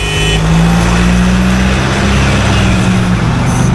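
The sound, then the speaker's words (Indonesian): A car engine drones loud and steady as the driver puts his foot down to beat a yellow traffic light, a low, even roar with road noise holding at much the same pitch throughout. “Masih bisa tancap gas nih. Pasti bisa. Gaspol.”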